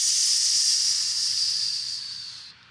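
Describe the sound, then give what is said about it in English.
A voice imitates the hiss of a boat cutting through flat calm water on leaving a harbor: a steady, breathy 'sss' held for over two seconds before trailing off. “the boat is just cutting right through the water, just making this hissing sound like”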